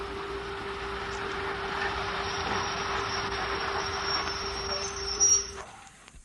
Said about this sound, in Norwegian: Naftatoget kommer om et øyeblikk inn på ca. spor 2. Avstigning muligens på venstre side. Hold god avstand.